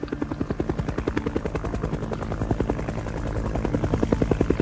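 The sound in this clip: The race organisation's helicopter films the start of the 1992 Vendée Globe solo round-the-world sailing race, its rotor beating in a fast, steady, rhythmic thump that grows slightly louder toward the end.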